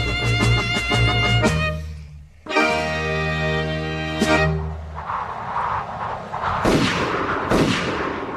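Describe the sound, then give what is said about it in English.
Two sharp gunshot bursts ring out close together near the end, following loud, sustained tonal sounds. “You've just shot me twice.”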